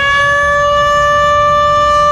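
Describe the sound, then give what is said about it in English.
The town noon siren in Goldfield, sounded to tell the miners it is midday, wails as a loud, steady, sustained tone that holds one pitch without a break. “Well, that's the noon siren. That's the noon siren.”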